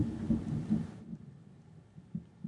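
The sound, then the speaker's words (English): A thunderclap rumbles, deep and loud for about a second, then falls to a lower rolling rumble with a few soft swells. “Oh, that was a well-timed clap of thunder.”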